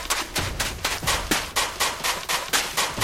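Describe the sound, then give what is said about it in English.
Shotgun fire in a video game, a long run of sharp, bright blasts at a brisk, regular pace of about three per second, each cracking hard and decaying quickly. “Load my pistol. Shotgun. The shotgun does more damage. It doesn't fire as quickly.”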